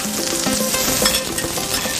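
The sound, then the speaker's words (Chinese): Loud, continuous sizzling of food frying on an iron griddle, with a spatula scraping firmly along the metal in repeated strokes under the steady hiss. “煎的时候刮铲一定用力，就是贴着那个铁板用力的铲上来，它不会粘锅”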